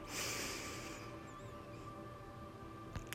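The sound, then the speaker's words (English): A deep breath drawn in during a guided breathing exercise: a broad, airy rush for about a second, then a fade to quiet. “One more deep breath for four.”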